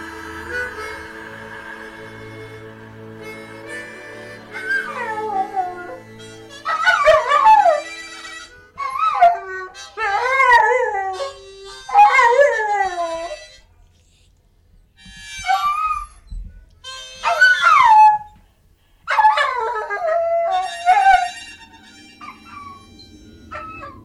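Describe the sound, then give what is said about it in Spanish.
A dog, the guide of the lost in the underworld, howls in a series of long, wavering, high-pitched wails with short yips between them, after a quieter opening; no one talks. “Pero si es el Xolotl, es el perro que guía a los que están perdidos en el inframundo.”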